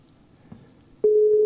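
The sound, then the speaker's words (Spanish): Telephone tone signalling that the called person is unavailable: after a second of low background hiss, one loud, steady mid-pitched tone starts abruptly and holds unbroken to the end. “Que no nos coge el teléfono. La persona a la que llama no está disponible.”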